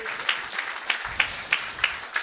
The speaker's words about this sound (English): Give them a big hand and welcome them to the greatest church in the world.